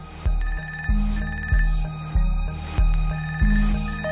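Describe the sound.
A telephone rings in six evenly spaced pulses, each a bright trilling ring with a sharp onset that fades slightly before the next, alone without voices.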